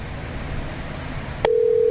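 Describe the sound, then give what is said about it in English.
Ringing of an outgoing phone call begins: after steady hiss and a short click, a plain continuous low-pitched ringback tone starts and holds steadily to the end. “Oh, we're ringing.”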